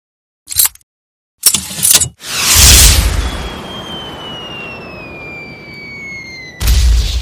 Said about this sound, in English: I just got a new M72 Law rocket launcher.